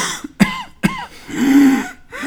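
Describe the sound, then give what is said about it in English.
A voice imitates the cough and wheeze of a lower respiratory tract infection in infants: two sharp, abrupt coughs, then a drawn-out, whistling, tonal wheeze with a rougher breath after it. “That was my best job at doing a cough and a wheeze.”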